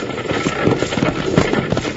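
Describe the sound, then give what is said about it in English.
Galloping horses drawing a runaway stagecoach with no driver, staged as a Western radio drama sound effect. Loud, fast, continuous hoofbeats pound over a steady rumble, with no break throughout. “is that a stagecoach pounding up behind us? No, you're right, partner. It is a stagecoach.”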